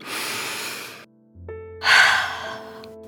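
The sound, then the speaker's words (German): A deep breath drawn in and then blown out: an airy inhale, a short pause, then a louder, fuller exhale over a soft sustained musical tone. “Noch einmal tief Luft holen und auspusten.”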